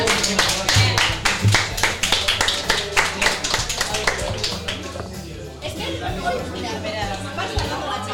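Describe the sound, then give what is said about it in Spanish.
Applause from a live audience at an in-person show: a burst of brisk hand clapping over the first few seconds, then thinning into scattered claps beneath crowd chatter and talking voices. “¡Dame un aplauso!”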